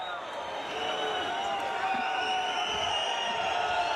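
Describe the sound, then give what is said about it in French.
Crowd of Argentine football supporters cheering in a stadium in Spain, a continuous dense roar of many voices with chant-like tones running through it at a steady level for the whole clip. “le public qui manifeste parce qu'il y a pas mal de supporters argentins en Espagne là qui donnent de la voix.”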